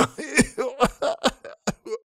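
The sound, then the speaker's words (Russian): A man clears his throat and coughs in a rapid series of short, throaty bursts, about eight of them, each separated by brief gaps. “Снова начал откашливаться дурень.”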